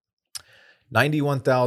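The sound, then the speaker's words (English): A computer mouse clicks once, sharply, to open a tweet, followed after a short pause by people talking. “So just click to open up the tweet,”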